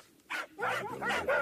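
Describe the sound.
Dogs barking: a few short, sharp bursts of yapping barks in quick succession, loud and clear over a quiet background.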